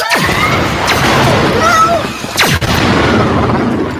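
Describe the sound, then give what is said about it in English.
Laser-gun zaps made by sending sound down a long wire, with the high frequencies arriving first. Two sharp, sweeping tones fall steeply in pitch, set against a loud, dense, noisy background. “So if you listen to the sound far away down the wire, the high frequencies get there first, and then the sort of mid frequencies and the low frequencies. So you get, it's a laser gun.”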